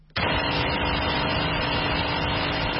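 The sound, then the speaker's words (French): A generator runs to power the flour mill of a bakery in the Obili district of Yaoundé during a fuel shortage. A dense, steady engine drone starts abruptly and holds loud and even throughout. “Un générateur alimente le moulin à farine de la boulangerie Obili, un quartier de Yaoundé.”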